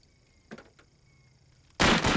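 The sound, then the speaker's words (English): A single gunshot fired at a cutout target: one sudden, loud, broad blast cuts sharply through near silence and rings on briefly to the end. “He shoots the cutout in the crotch.”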